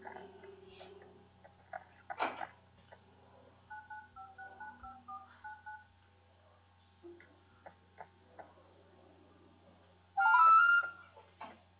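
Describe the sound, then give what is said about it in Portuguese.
Touch-tone keypad beeps as an office worker dials her boss: a quick run of short, faint dual-pitched tones, among scattered soft clicks and a louder burst near the end. “eu vou ligando pro meu chefe, tá bom? Que ele não tá aqui, mas eu vou ligar para ele.”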